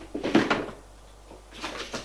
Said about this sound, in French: Va à son tiroir,